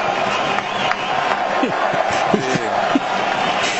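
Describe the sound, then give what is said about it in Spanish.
Football stadium crowd during a match between Ecuador and Ivory Coast: a steady, dense roar of fans in the stands urging on their team, with a commentator talking over it throughout. “El público empuja en la tribuna.”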